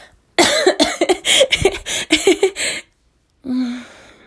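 Coughing after choking on something: a rapid run of many harsh, loud coughs in quick succession, then a short silence and one longer, rougher cough to close.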